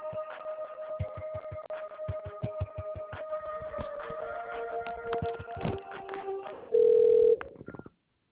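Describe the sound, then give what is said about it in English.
Telephone line tones as a call is connected: a run of beeps and layered tones, then a steady ringing tone near the end before the line goes quiet. “Thank you for calling. You will now be connected to the person you dialed.”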